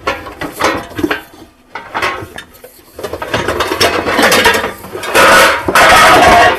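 Mixing bowls tumble and clatter in a kitchen: a run of loud metallic clanks and rattles, a brief lull, then a dense, louder burst of clattering toward the end.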